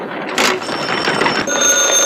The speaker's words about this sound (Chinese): 立定，接电话。